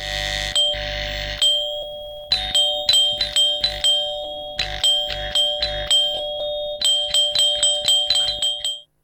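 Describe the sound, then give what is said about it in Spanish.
A doorbell chimes over and over, with many bright ding-dong tones in quick, uneven bursts that stop abruptly at the end. “cuando suena el timbre de la puerta.”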